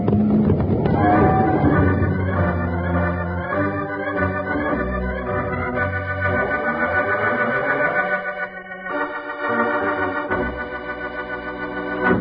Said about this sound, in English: Jingles, it's a stampede. And we're right in the middle of it. Right for the edge of the herd, partner.